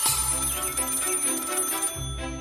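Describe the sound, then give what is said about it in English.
A telephone bell rings with a loud, bright, sustained metallic trill for about two seconds, breaks off briefly, then starts ringing again. “Then the next morning, the phone rang.”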